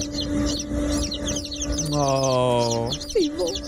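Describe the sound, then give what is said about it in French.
Chicks peep in a henhouse in a stream of rapid, high-pitched chirps that runs through the whole recording, with a brief sustained voice-like tone rising partway through. “on a notre ami Jeff qui nous a envoyé des sons de son poulailler. Oui. Il dit, moi, c'est ce qu'il a enregistré pour se réveiller le matin. De bonne humeur. Et là, on a son plus récent enregistrement, ses poussins.”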